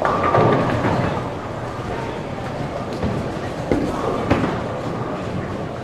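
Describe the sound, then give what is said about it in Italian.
An indoor ten-pin bowling alley, with a steady rolling rumble and a few dull thuds and knocks. “Salve studio, qui è il vostro Pallino che parla dalla pista del bowling a 10 birilli, uno sport comunemente praticato al chiuso”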